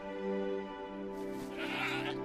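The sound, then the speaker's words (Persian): An overgrown, heavily woolled sheep bleats in a long, wavering, nasal call that turns harsher and breathier toward the end. “این گوسفند بیچاره زیادی بزرگ شده، معلوم شد چرا خلقش تنگ شده.”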